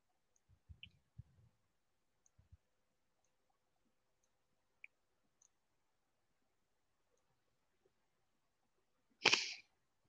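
Mouse clicks on a computer while selecting images in a captcha: several faint, sharp clicks in quick bursts early on, then sparse single clicks, ending with a short, louder rushing burst.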